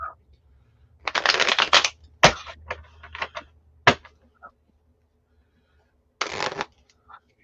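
Gilded tarot cards being shuffled: a long riffling burst, then scattered sharp taps and snaps, and a shorter riffle near the end, with near silence between.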